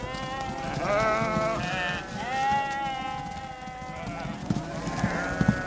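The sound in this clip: A flock of sheep bleating as a rider on horseback drives it, many overlapping wavering bleats at a moderate level, with a few faint clicks near the end.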